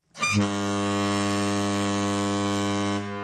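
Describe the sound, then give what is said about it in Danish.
The ferry to Bornholm gives a deep, steady, droning tone rich in harmonics, held for about three seconds and then cut off. “Og det er færgen til Bornholm.”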